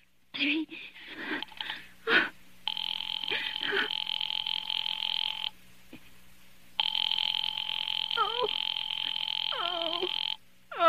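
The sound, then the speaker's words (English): Telephone rings on the line after an operator places a call to a Murray Hill exchange number: two long, buzzing rings separated by a short pause, with voices talking before, between and over them. “Operator, try that Murray Hill 70093 number for me just once more, please.”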